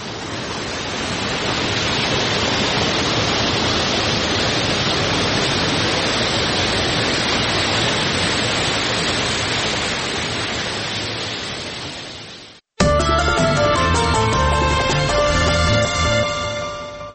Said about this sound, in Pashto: د اورزګان د مزار بابا په نوم دا چینه د دې ولایت یوه له مشهوره تفریحي او تاریخي سیمو څخه ده چې د ښکلي طبیعت او یخو اوبو په لرلو سره د خلکو لپاره د آرامۍ او ساتیري یو غوره ځای دی